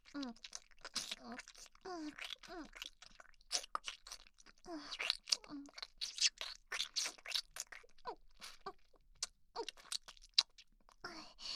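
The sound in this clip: Wet kissing sounds, many quick smacks and lip pops in an irregular rhythm, with soft voiced sounds mixed in between.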